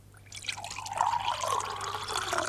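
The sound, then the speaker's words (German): Water drips and trickles, faint at first and then swelling into a soft, continuous liquid patter that holds steady to the end. “Das Wasser? Das Wasser.”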